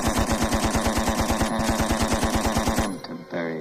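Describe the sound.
A machine gun sound effect fires a rapid, steady burst of loud, evenly spaced shots for nearly three seconds, then cuts off abruptly.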